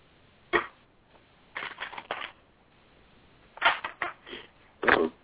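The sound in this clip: Playing cards are shuffled and drawn for a card reading. Short bursts of riffling and snapping come in a few separate clusters, with quiet gaps between them.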